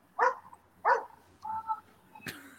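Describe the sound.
A dog gives two short, sharp barks in quick succession, followed by a brief whining sound, all fairly faint and with no talking.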